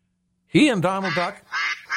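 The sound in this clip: A duck quacking sound effect gives a few nasal, buzzy quacks. A longer wavering call comes first, followed by two shorter quacks, clear and moderately loud with no talk over them.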